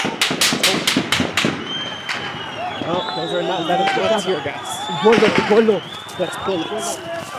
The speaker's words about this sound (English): Bullets. So bullets of some kind have been fired.